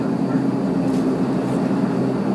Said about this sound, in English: Can you even see the propeller, or is it spinning too fast? It's spinning too fast. You can't see it.